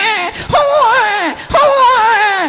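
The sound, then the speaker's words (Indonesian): A voice imitates a newborn baby crying in two drawn-out, wavering wails. Each cry starts with a sharp onset, then quavers up and down in pitch. The imitation is loud and fairly continuous. “Suarane napa niku, Bu? Bayi jare.”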